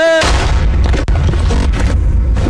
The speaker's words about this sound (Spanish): con la frialdad y la agilidad de un pistolero a sueldo, saca un arma y le da un tiro en la cabeza